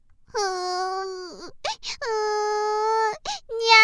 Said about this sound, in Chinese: 孩子被吓得跌倒在地，大哭了起来。